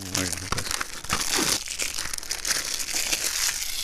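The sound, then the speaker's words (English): Plastic shrink wrap crinkled to imitate a crackling fire, the old sound-effect trick: continuous dense crackles and crisp rustles, loud throughout, with voices talking over the start. “This is how they did fire sound effects in the olden days. As we sit close to the fire.”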